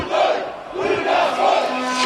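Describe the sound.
An agitated crowd roars at a violent street protest in Piața Victoriei, a loud, continuous mass of shouting voices that swells in several surges, with yelled tones rising above the general din.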